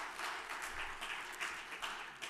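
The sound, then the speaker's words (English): Faint, steady applause from a church audience, a dense patter of many hands clapping together without a break for a couple of seconds. “And so we will like to applaud you for what you have done.”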